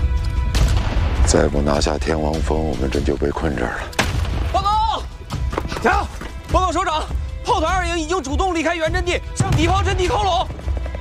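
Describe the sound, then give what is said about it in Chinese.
Heavy artillery fire from dense enemy gun positions during an assault on a mountain peak, with repeated booms and crashes throughout and loud, wavering voices over the barrage. “天王山主峰攻不下去，他们的炮火太强大了。他们的炮火密度比我们高，精度也够准”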